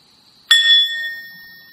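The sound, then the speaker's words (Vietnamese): A Buddhist meditation bell is struck once, giving a single bright, clear ring that fades slowly into silence. “Hơi thở vào, hơi thở ra, sau đó mình mới thỉnh một tiếng chuông.”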